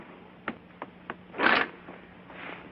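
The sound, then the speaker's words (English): Drapes being drawn closed, with a few faint clicks of rings on a rail followed by a soft swish of sliding fabric and a quieter rustle after it. “May I draw the drapes for you? That would be wonderful.”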